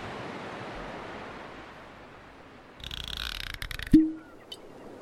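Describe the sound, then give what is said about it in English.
Ocean waves wash onto a shore in a continuous, even rushing hiss, broken near the end by a brief clatter and a short tonal chirp. “let's head to the shore for a message in a bottle.”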